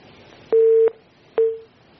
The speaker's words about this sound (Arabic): قطع اتصال.